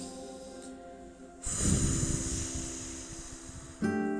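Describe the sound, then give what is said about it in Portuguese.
Slow breathing in and out during a guided relaxation pause: one long, soft, airy breath lasting about two seconds over a faint sustained tonal background, with another breath starting near the end. “Uh, respira um pouquinho.”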